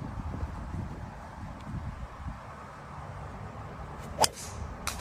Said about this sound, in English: Into the trees. Yeah. So you can't see where the ball went because it's just showing him. Not bad form, honestly. But you can hear the ball just whacked right into a tree